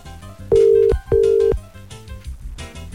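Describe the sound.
A telephone rings unanswered during a radio phone-in call, sounding as two steady, even tones of about half a second each over a low background.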